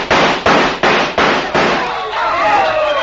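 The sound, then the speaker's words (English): Gunshots fired at match heads stuck in the end of a board: five sharp, loud bangs in a quick, even rhythm, then a quieter, sustained wash of sound. “They stuck matches in the end of a board, and the idea was to shoot and light the heads of all the matches. Like this.”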